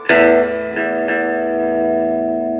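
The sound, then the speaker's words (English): Clean electric guitar on the bridge pickup through a Tone Master amp with the gain down and only reverb: one bright strummed chord rings out, a couple of lighter re-strikes follow, and the long reverb-washed sustain carries on with no talk. “So let's hear gain down and just reverb straight through the Harvard No Tone Master.”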